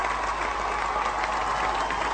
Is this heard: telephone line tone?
no